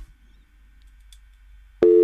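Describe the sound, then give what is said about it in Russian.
A telephone busy signal sounds after a dropped call: a loud, steady tone begins abruptly at the very end, after near silence with a faint low hum. “Пропала уже телефонная связь.”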